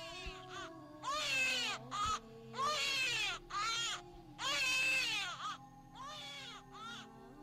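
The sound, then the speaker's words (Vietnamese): A newborn baby cries at the end of a maternity ward corridor, loud shrill wails in several repeated bursts with short gaps, echoing back and forth along the hallway. “Thỉnh thoảng, ở cuối hành lang khoa sản, chẳng biết là tiếng trẻ con sơ sinh nhà nào khóc cứ choe choé. Âm thanh cứ vọng qua vọng lại, nghe đến sợ.”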